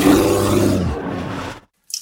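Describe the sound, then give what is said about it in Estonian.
Water from a kitchen tap makes a loud rushing flow that fades and cuts off, followed by a short silence and a brief new sound. “Ma tilgun! Kurdab köögikraan. Ma lausa nirisen.”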